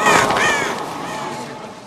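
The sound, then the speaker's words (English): Crows cawing in a theatre during a magic act, loud harsh caws at the start that trail off into a fading rush of noise. “He tosses them into the audience, and they turn into flying crows.”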